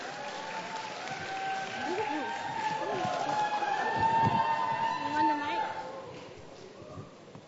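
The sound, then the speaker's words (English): An audience applauds to welcome a dancer at an evening ministry gathering, with steady clapping and cheering voices on top that build in the middle and then fade. “So we can, give a round of applause.”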